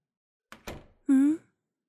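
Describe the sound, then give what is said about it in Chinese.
An open entrance door swings shut on its own, giving two soft dull thumps followed by a short, clear ringing tone that fades quickly into silence. “哎呀，入口的门关上了呢。那扇门原本打开着，却擅自关上了。”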